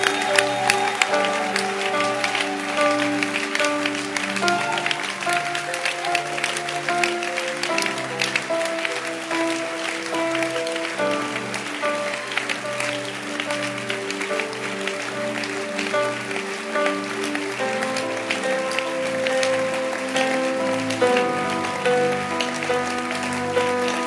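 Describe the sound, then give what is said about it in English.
A church audience clapping their hands: continuous, dense rhythmic clapping that runs the whole time over sustained musical chords and changing notes. “Clap your hands that you are in church. I appreciate your kindness. Clap your hands.”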